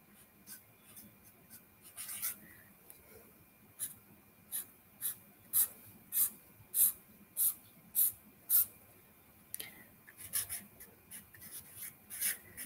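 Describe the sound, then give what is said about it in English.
A pen drawing lines scratches across paper in a run of short, evenly spaced raspy strokes, with looser scribbling before and after. No one speaks. “So I'm going to do something. Draw a couple of lines just to make a point.”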